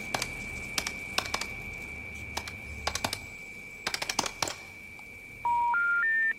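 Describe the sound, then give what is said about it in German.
A mobile phone being dialed: many quick key taps in short bursts over a steady high tone, followed by three rising electronic tones at the end. “Ruf es doch mal an, dein Handy.”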